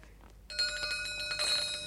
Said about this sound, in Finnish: Minä soitan kelloa.